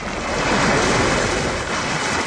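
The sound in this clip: Stormy waves on the Black Sea surge in a loud, continuous rushing roar that swells slightly and never pauses, with no voices.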